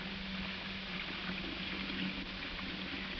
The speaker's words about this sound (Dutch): U hoort het nu duidelijk in de emmer lopen. En zodra de emmer vol is, dan is het eigenlijk gebeurd en dan hebben we de emmer water weer gevuld